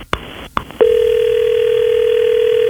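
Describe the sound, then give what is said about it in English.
A telephone line tone from a call being placed to a radio station listener: a few sharp clicks, then a steady, continuous mid-pitched tone that holds unbroken to the end, with no voices. “We're going to call Lauren. You got to be quiet, all right, Kyle? Sounds great. All right, here we go.”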